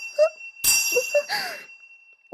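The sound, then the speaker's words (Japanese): A bell rung twice, each strike a bright metallic ring with a shimmering tone that lingers briefly before fading, set against short, higher squeaky sounds. “これ、ベル2回？”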